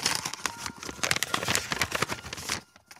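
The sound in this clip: Paper envelope being torn open, a dense run of crisp crinkling, crackling and tearing rustles that continues steadily and then drops to near silence at the end.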